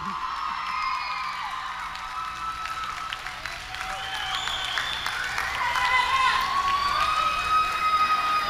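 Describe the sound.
A crowd at a Hindu school cheers, whoops and claps in celebration. The noise is steady and moderately loud, and it swells toward the end.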